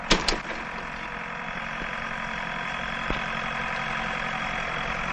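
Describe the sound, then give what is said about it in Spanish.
A tractor engine drones steadily as it plows a field, with a few sharp knocks near the start and one more midway. “Observa a Tomás en el tractor arando el campo”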